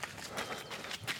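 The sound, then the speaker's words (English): Footsteps of a wintry morning run, a quick, steady rhythm of many soft footfalls, faint and unaccompanied by talk. “This is the sound of a wintry morning run.”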